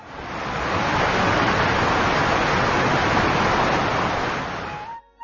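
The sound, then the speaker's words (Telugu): Roaring waterfalls and rushing streams, a dense, steady wash of water noise that swells up at the start, holds evenly, then drops away briefly at the very end. “గలగలపారే సెలయేళ్లు, హోరెత్తించే జలపాతాలు,”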